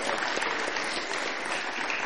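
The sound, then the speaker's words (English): Applause at a conference gives moderators and presenters another round of thanks. Dense, steady clapping from a crowd carries through the whole short clip. “I think all our moderators and presenters need another round of applause. Let's appreciate them.”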